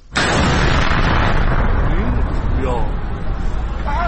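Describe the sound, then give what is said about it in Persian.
A drone-attack explosion in Isfahan just before midnight: a sudden loud burst at the start turns into a sustained, roaring wash of noise, with faint voices surfacing over it later. “این صدای انفجاری بود که شنبه هشتم بهمن کمی قبل از نیمه شب در اصفهان شنیده شد.”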